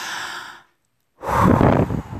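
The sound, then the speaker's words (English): Deep breathing in and out as a relaxation exercise: a long airy breath, a short silent pause, then a second, louder breath of steady rushing air. “Just relax and just breathe in and breathe out a couple of times, about five times. Deep breathing and”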